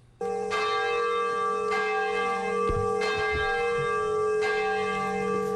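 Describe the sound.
A large bell rung at the atomic bombing memorial ceremony in Nagasaki, Japan: one loud strike near the start, then a rich, sustained ring that hums and pulses steadily to the end, with no voices.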